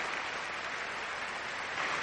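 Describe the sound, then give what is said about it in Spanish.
A large crowd applauds before a giant screen, a dense, steady wash of clapping that holds at an even loudness for the whole stretch with no distinct voices. “Una enorme multitud aplaude ante la gran pantalla.”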